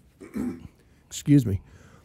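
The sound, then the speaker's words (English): A person coughs during a conversation: a few short, husky bursts, close and moderately loud, with brief quiet between them. “I'll just edit that out. I mean, that's not going to be a problem at all because you were just talking and then coughed.”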